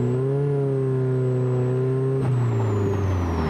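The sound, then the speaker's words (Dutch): Engine of a classic Plus 4 car with a wooden body, a 154-horsepower Ford four-cylinder and an Aero Racing sport exhaust, holding a steady droning note with a thin high whine above it and a slight shift late on. “houten carrosserie, Aero Racing sportuitlaat. Ja, het motorgeluid, die krijgt wel een hele mooie nadruk hier. En dan van die lekkere, lekkere plofjes als je het gas loslaat.”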